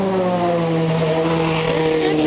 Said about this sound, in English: Pit stop for Corvette Racing for this race